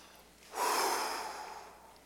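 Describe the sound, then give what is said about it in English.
A voice imitates breath being blown into a nose with a single forceful, breathy exhale. It starts abruptly, holds strongly, then slowly fades over about a second and a half, with no other sound around it. “for God to gee in his face and to wrap his mouth around Adam's nose and go,”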